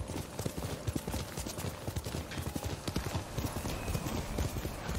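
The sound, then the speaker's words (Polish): In a video game, a horse's hooves gallop in rapid, steady clip-clop beats that run without pause across the whole clip. “Koniu! A tu! No, skakuj pan.”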